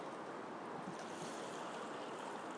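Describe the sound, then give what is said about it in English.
River Thames water sloshing at the edge of Battersea Park in London, a faint, continuous wash of lapping water with no distinct separate splashes and no voices. “The main sounds are from the Thames sloshing away behind me and below me, by me.”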